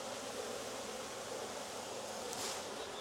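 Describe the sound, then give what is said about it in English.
Angry honeybees buzz around a beekeeper taking honey without gloves, a faint, dense, continuous hum of many wings that stays steady throughout. “Yeah, they're getting angry that I'm stealing honey. Should have gloved up, I guess.”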